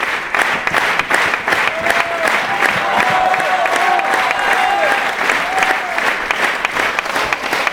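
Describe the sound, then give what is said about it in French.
A theatre audience rising for a standing ovation: dense, sustained clapping from a large crowd, steady and loud throughout, with a few voices calling out within it. “peu à peu, comme chaque jour, la foule monte et la foule se met debout, là, c'est une standing ovation, comme on dit.”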